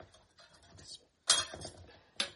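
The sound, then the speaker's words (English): A plate is picked up while a pie is being served, giving two sharp ceramic clinks over quieter handling rustle. “Let me grab a plate.”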